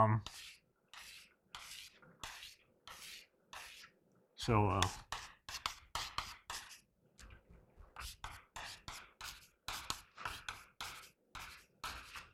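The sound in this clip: Marker or chalk strokes on a board during a mathematics lecture: many short scratching bursts arrive in quick runs, broken by a few brief pauses, with no speech.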